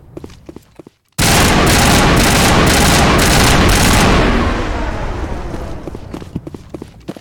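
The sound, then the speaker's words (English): Rapid automatic gunfire in a video game as the player shoots at power junctions. It starts abruptly after a quiet second and roars continuously and loudly for about three seconds, then slowly trails off into scattered clicks and pops. “See, I don't know what these power junctions do. But I know that I'm gonna shoot them.”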